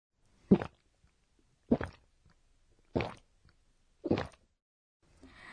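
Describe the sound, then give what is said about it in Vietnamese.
A person gulps down a drink in four loud, evenly spaced swallows about a second apart, each a short throaty plop, followed by a faint breathy sound at the end. “Ai đó đang uống cái gì phải không ạ? Vâng, đúng rồi ạ. Từ để chỉ âm thanh này là goku goku. Goku goku chỉ âm thanh phát ra khi một người uống ừng ực.”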